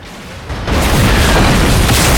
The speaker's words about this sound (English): An orange fireball erupts.